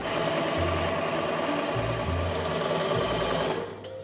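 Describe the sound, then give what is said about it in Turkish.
An overlock sewing machine stitches a knitted sweater with a fast, steady mechanical whirr and a faint rhythmic thumping. It stays loud throughout and stops near the end. “Giydiğimiz kazakların hepsi bu aşamadan geçiyor. Şimdi dikiyorum. Geliyor.”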